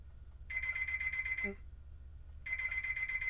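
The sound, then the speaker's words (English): Alarm clock ringing in two long bursts of rapid, high-pitched electronic beeping, separated by about a second of quiet. “I rustle out from under my covers and feel for the alarm clock. As the alarm clock is going off, someone comes barging into my room. They come over to the bed and turn the alarm clock off for me.”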